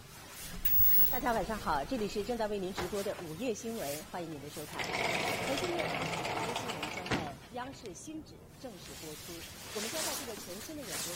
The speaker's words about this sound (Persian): جمشید توی حمام در حال دوش گرفتن.